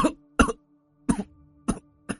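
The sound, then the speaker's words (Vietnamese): A man with tuberculosis coughs alone in five short, dry, hacking bursts separated by brief pauses of silence. “Người đàn ông ho lao, một tay đặt lên trên bàn, một tay ôm ngực rồi thở hắt ra ho khục khục mấy tiếng.”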